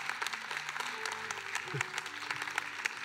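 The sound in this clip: Church audience applauding during a Sunday service, with a burst of many scattered handclaps and a voice talking over the clapping.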